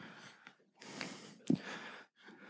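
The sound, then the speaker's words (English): A deep breath, with a few noisy, breathy inhalations and exhalations in short bursts and no talk. “Everybody just take a big, deep breath.”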